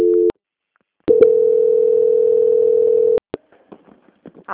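A steady telephone tone plays while a bank call is being transferred: a short burst, a brief silence, then a long unbroken tone of about two seconds, followed by a few clicks and faint scattered noises.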